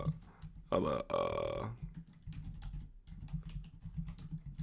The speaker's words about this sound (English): I'm about to type it right now as we speak.